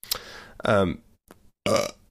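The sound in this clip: A person burps loudly, a few guttural eructations of uneven length separated by brief pauses. No other talk is heard.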